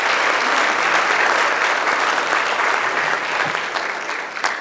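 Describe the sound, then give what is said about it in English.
A church audience claps their hands in a sustained, even burst of applause, full and loud, easing slightly toward the end. “Let's give the Lord a hand clap.”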